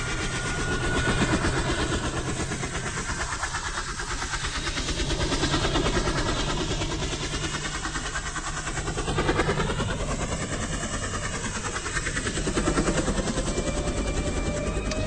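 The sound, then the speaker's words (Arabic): An airplane engine drones in an audio drama, a steady, dense, continuous roar that swells and eases slightly over about fifteen seconds with no talk. “لفت نظره صوت الطيارة والطيارة ما كانتش باينة، فقعد يبص يمين وشمال عايز يعرف الصوت ده جاي منين.”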